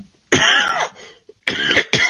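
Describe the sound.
Loud, harsh coughing in bursts: one long rough cough, a short pause, then two more in quick succession, alone with no talk.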